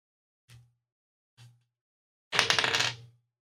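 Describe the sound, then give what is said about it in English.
A six-sided die rolled for a tabletop card game: two soft separate taps, then a short clattering rattle of quick bounces lasting under a second, alone. “I'll place this card face up and roll a d6 for the candles.”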